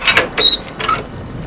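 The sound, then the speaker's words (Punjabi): A door opens with a few short mechanical clicks from the latch and handle and a faint creak, all brief and moderately loud with no voices. “ਤੂੰ ਦਰਵਾਜ਼ਾ ਖੋਲ।”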